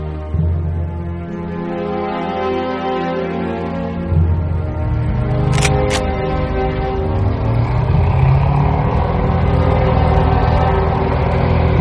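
A tank engine rumbles as the tank advances across a snowy, ruined battlefield toward a trench, a loud, continuous low drone with shifting grinding tones and no voices.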